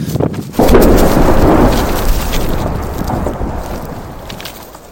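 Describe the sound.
An explosion at a refinery, a sudden loud blast that cuts in after a brief quieter sound and then fades as a long, rumbling roar over several seconds.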